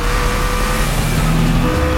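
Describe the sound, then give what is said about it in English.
A car engine roars loudly and steadily under a sustained tonal whine as the vehicle drives through a turn across a median during a chase on a busy road, the noise continuous with no clear breaks. “Vickers crosses the median a bit slower, but makes the turn. Lindy now drives head-on toward Vickers.”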